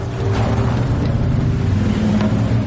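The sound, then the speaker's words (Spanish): An SUV's engine rumbles low and steady as the vehicle leaves the road and turns left, a continuous motor drone with no voices. “El todoterreno sale de la carretera y gira a la izquierda.”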